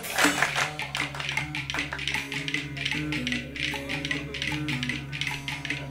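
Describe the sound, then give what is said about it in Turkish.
Spoons played as a percussion instrument during a Turkish folk song, a fast, steady stream of bright clicking taps over sustained musical accompaniment. “Şimdi kaşıklar.”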